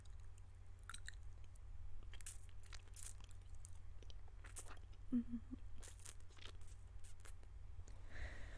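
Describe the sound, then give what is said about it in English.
Wet sucking and smacking mouth sounds on fingers: several soft, squelchy smacks scattered over a steady low hum, with no clear talk. “Alright, give me your hands. Let me suck on your fingers.”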